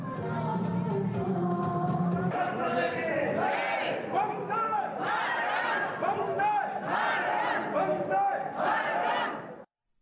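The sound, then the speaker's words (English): Traditional Maldivian dance welcoming a Prime Minister at Velana International Airport, with a group of voices loudly chanting and shouting together for about ten seconds before cutting off abruptly. “The Prime Minister was welcomed with a traditional dance performance.”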